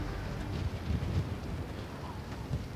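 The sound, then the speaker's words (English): Strong, cold wind at high altitude near a volcanic crater roars steadily against the microphone, with deep buffeting gusts and a broad rushing hiss that never lets up. “There's no air, but the wind's so strong. And it's pretty cold.”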